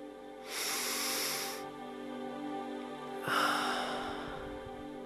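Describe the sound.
Two slow, audible breaths of airy, hissing air separated by a pause, faint and unhurried over a soft, steady hum, with no talking.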